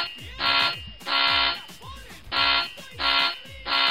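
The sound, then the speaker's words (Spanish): An alarm sound effect blares in five harsh, buzzing electronic bursts, each about half a second long, separated by short gaps and loud throughout. “solo falta que nos suene una alarma.”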